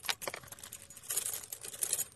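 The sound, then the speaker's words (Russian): A key grates in a door keyhole with metallic scraping and rattling clicks. The sound runs in an irregular, continuous stream for about two seconds, with no voices. “В эту минуту послышался скрежет ключа в замочной скважине.”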